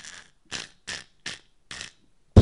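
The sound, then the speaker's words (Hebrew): A tree cracks and falls: five sharp, evenly spaced cracking bursts, then one loud, heavy crash at the end. “מה קרה? העץ נפל.”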